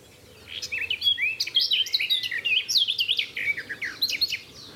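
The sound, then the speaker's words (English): A garden warbler sings beside a cattle trough, a rapid, continuous run of high, bubbling warbled notes that rises quickly from quiet and keeps going without a break. “beside a cattle trough because there's a garden warbler.”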